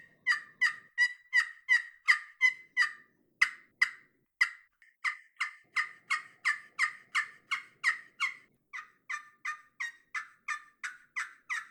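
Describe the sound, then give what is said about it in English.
Many fast, scratchy yelps from an unchalked scratch box turkey call about the size of a bar of travel soap, played in several quick runs with short pauses between them. The strokes are rhythmic and fairly loud, with no voices. “Okay, so that's a little scratch box I picked up. One of the things I really like about that scratch box is it literally is about the size of a bar of travel soap.”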